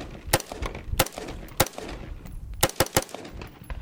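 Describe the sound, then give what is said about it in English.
Gunfire from a regular AR-15 rifle: several loud, sharp shots in an irregular rhythm, some isolated and some in a quick cluster of three, each with a short ringing decay. “I'm going to give you an example of a regular, again, this is a regular AR-15 being fired.”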